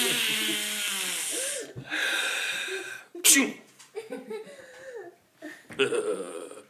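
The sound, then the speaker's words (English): A sneeze during a playful game: one sharp, noisy burst that stands out between stretches of animated talk, with further speech following right after. “Oh, he doesn't like sneezes.”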